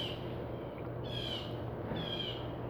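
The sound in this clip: Bird calls: a few drawn-out, high, slightly falling calls repeat at a slow pace over a steady low hum, fairly faint and alone.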